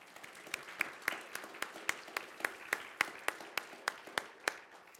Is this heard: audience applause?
yes